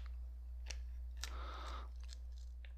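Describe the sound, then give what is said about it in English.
Plastic being torn off a corner gives a faint, crinkly rip lasting under a second. A few small sharp clicks come before and after it over a low steady hum. “I'm sniffing the piece of plastic I tore off the corner.”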